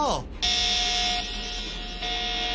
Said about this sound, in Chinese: 机械人 B B 发出警报声啦！